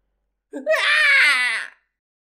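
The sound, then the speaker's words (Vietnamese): An anguished scream used as an audiobook sound effect for a fantasy tale: one strained, wailing vocal cry swells fast, holds high and loud for about a second, then breaks off sharply into silence. “Tiếng kêu thảm thiết vang lên liên tiếp, những người bỏ chạy hướng vừa rồi lập tức quay ngược trở về.”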